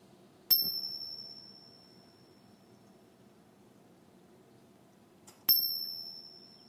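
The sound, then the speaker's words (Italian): Two bright bell strikes announce a final arrival at a celebration in Taos, New Mexico. They come about five seconds apart, and each rings out clearly and fades slowly into near silence. “Maestro, prego, suoni le campane per annunciare il nostro arrivo finale.”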